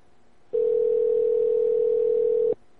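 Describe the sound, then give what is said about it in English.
A telephone dial tone sounds during a Skype call: a single steady, pitched tone lasting about two seconds. It starts and stops abruptly and plays alone against faint background hiss. “Actually, let me call Zyklon myself. I can do that.”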